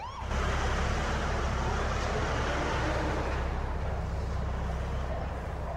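An ambulance pulling away with a patient on board: continuous loud road rumble and engine noise, with siren tones sounding over it, easing slightly quieter toward the end.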